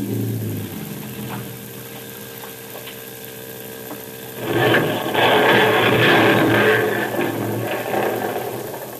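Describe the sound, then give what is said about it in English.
A boat motor runs as it is throttled down: a steady low, mid-pitched engine hum with a faint rattle, then a louder, rougher rushing noise swells from about midway and holds to the end. “better cut the motor down and listen.”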